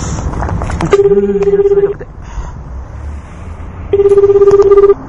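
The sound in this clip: Telephone ringback tone while a call waits to be answered. Two buzzy, warbling mid-pitched tones of about one second each are separated by a longer gap and play over steady background noise.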